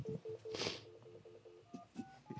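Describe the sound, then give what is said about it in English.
Telephone keypad tones as a number is dialed to call back, a quick run of short, evenly spaced beeps followed by a few different phone tones, faint and clear with no talking. “I guess we got to call back.”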